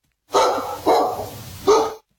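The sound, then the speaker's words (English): A dog barks three times, each bark short, sharp and fairly loud, alone with brief pauses between them. “Dogs. Okay, dogs.”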